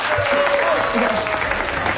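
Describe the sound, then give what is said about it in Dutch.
Warm applause for a singer hailed as queen of Limburg song at a theatre event in Maastricht: thick, steady clapping from a large audience. “ik wil toch een warm applaus voor de koningin van het Limburgse lied. Bepi Kraft!”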